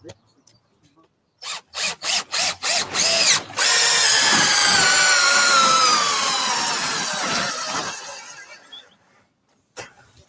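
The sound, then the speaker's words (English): A power drill drives exterior-grade treated coach screws into wood: about six short bursts of the motor, then a long sustained whine that slowly drops in pitch, and a brief final burst. “So we have these special coach screws, which are treated to be used externally, that should anchor this down perfectly.”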